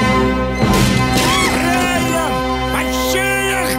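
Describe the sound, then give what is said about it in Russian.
Guards are struck with stools in a film fight scene: a short, sharp crashing smash near the start, set among loud sustained tones and gliding, cry-like sounds. “Лейтенант ударил табуретками охранников посла.”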